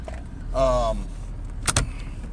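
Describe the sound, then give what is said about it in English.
An old, noisy car with 143,000 miles on it rumbles steadily at a low pitch. A brief whirring motor sound rises and falls in the middle, and a couple of sharp clicks follow. “Sorry about the noise. That's my car. It's noisy. I mean, it has 143,000 miles on it.”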